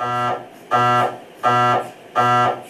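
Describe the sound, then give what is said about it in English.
An MRI machine makes noise during a scan: four loud, harsh buzzing pulses, each lasting under half a second. The pulses are evenly spaced in a steady, repeating rhythm. “Magnetic resonance imaging, or MRIs, don't necessarily look scary to adult patients, but they do make a sound roughly like this.”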